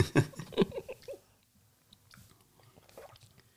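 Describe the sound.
Tasting a sip of freshly brewed coffee: a quick cluster of slurps and wet mouth smacks, followed by quiet, faint mouth sounds and breathing.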